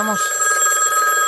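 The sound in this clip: A telephone rings with a steady electronic tone that holds unbroken for the whole clip. It sounds alone, with no talk.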